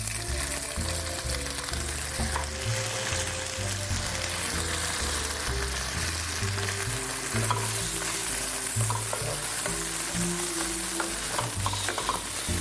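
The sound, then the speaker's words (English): Tomatoes sizzle as they fry in a pan for an Indian dish, with a steady, continuous hiss and crackle and some stirring throughout, with no talk. “tomatoes are in the pan.”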